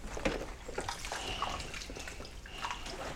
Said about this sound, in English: Is that washed? I'll just wash it.